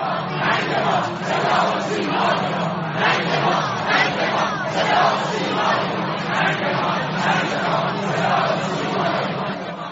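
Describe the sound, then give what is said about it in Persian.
A crowd chants harsh slogans along a funeral procession route, a dense, loud, continuous roar of many voices that swells and recedes slightly for the whole stretch. “در مسیر تشییع پیکر آقای هاشمی رفسنجانی، صدا و سیمای جمهوری اسلامی با شعارهای تند بخشی از مردم روبرو شد”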